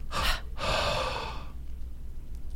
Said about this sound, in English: Inhale. Hold, exhale. Do one more time. Inhale deeply.